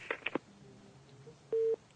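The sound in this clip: Telephone busy tone after a call-in line disconnects: a few short faint clicks, then one steady low beep held for a moment before the line goes quiet.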